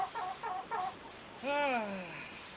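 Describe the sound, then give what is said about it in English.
A chicken clucks in three short, even bursts, then gives one longer, drawn-out call that falls in pitch. The sounds are faint and heard alone. “are we supposed to bring the chicken down to the desk?”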